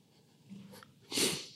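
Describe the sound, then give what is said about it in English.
Sniffling from someone with a cold: a soft, quiet breath, then a short, sharp nasal inhale that is the loudest moment, heard alone without talk. “Excuse me, I'm just a little sick. If you hear a little snuffles. It's not me crying.”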